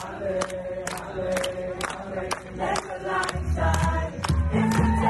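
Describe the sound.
A crowd sings a rock song at a Sunday service event in Wyoming, with sustained massed voices over a steady, regular drumbeat, moderately loud throughout.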